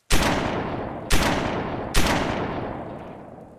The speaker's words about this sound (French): Sans hésiter, il tire 3 fois dans le torse de son visiteur.